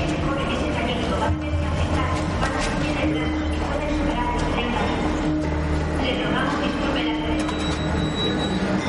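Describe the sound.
Train station ambience as a man runs through the station corridors: a steady, dense rumble of rail traffic and clatter with voices mixed in, constant in level throughout.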